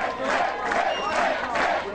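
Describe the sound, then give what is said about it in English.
A crowd cheers and shouts steadily at Mitt Romney's New Hampshire headquarters on the night of his Republican primary victory, a dense, continuous wash of voices with shrill whistles rising above it. “Cheers erupting at Mitt Romney's New Hampshire headquarters as the former Massachusetts governor cruised to an easy victory in the Republican primary there.”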